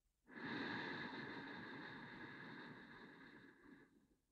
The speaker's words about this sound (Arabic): ومننتقل للدورة الثانية شهيق من الأنف